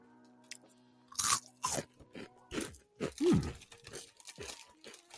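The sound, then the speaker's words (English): Loud crunching and chewing on spicy corn snack chips. A few crisp bites are followed by a run of crunchy chews that gradually soften. “Okay, so it looks like a Cheeto, but it tastes like a hot fry.”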